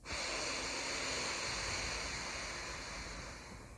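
A slow exhale through the right nostril during alternate nostril breathing, a faint, steady, airy rush that gradually trails off toward the end, heard alone.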